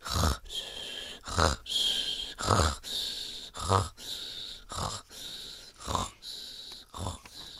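Heavy, rhythmic breathing comes from an exhausted show host as he drifts off to sleep. Raspy, wheezing inhales alternate with snorting, grunting exhales in many steady, evenly spaced cycles, with no talk over them.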